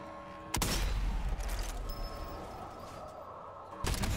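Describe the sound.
Gunshots in a zombie shooter video game with a bullet-cam view: two sharp, loud blasts a few seconds apart, the first followed by a long, sustained, rumbling tail that slowly fades before the second shot.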